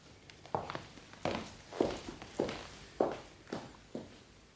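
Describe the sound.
Footsteps of someone walking out of a room in a radio drama, a steady, even series of soft thuds at an unhurried pace. The steps are faint and heard alone.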